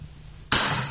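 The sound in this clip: After half a second of near silence, a drinking glass is handled and clinks with a sudden bright, glassy burst that keeps ringing loudly to the end.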